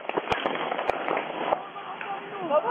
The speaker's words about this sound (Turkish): Bazıları yumruk yumruğa kavga ederken bazıları da silahını çekti, peş peşe tetiğe bastı.